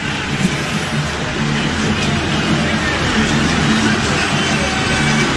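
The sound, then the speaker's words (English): A stadium crowd roars at a Cleveland Browns home game against the Pittsburgh Steelers after a touchdown. The loud, dense roar stays continuous and unbroken throughout, with faint voice-like tones within it. “Oh, look at this stadium. And listen to this stadium. As the Browns go down the field and open up an 8-point lead, Nathan, at 22-14.”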